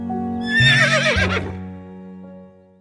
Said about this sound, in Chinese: 弟弟把光溜溜的马牵回了家。